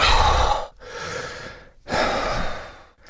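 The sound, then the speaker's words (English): Laboured breathing as in late-stage emphysema: three long, harsh, rasping breaths, loud and close, split by brief pauses, each a strained, noisy rush of air with no voice. “This is what breathing is like in the latter stages of emphysema. Sufferers describe it as feeling like you're suffocating 24 hours a day.”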